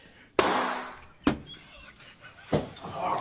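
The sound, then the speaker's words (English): Gunshot-like bangs from a gun going off accidentally while someone handles it from a pocket: three sharp, loud reports, evenly spaced, each with a short fading tail over a low background. “Who shot who? Somebody got shot?”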